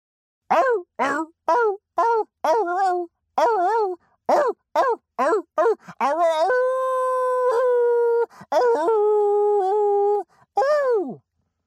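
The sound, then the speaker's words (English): A human voice imitates a dog howl, starting with many short, rhythmic yelping syllables and ending in three long, drawn-out wavering howls at a steady pitch, loud and clear. “you want to hear the everybody boogie howl? You know it.”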